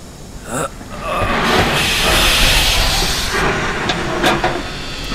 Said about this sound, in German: Ich öffne jetzt den Verschluss des Ofens.